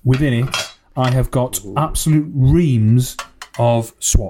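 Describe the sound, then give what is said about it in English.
Metallic clattering of a Champions League sticker tin full of swap stickers, shaken in several short rattling bursts that come between and beneath a person's continuous talking. “Listen to this. This is the sound of my Champions League tin.”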